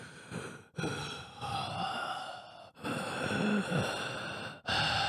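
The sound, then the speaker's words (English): A voice imitates heavy, audible breathing, as of someone sitting and relaxing on a couch: long, breathy sighing exhales with short gaps between them, loud and alone. “Having audible breath pisses me off. Yeah. Like, if you're sitting, just, like, relaxing on the couch, and you're just, like...”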